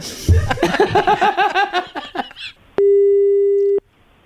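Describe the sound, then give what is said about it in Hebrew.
A single steady telephone line tone sounds for about a second while a call is placed to a lottery winner, following a stretch of bright, rhythmic laughter-like bursts. “הנה, אנחנו רוצים להתקשר לזוכה.”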